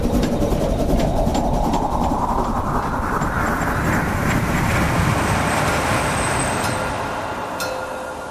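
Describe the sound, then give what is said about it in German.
A passenger train travels along, a continuous broad rumble with rattling wagons that holds steady before easing slightly toward the end. “Wir sprachen wenig, gingen in Emden von Bord und bestiegen den Zug.”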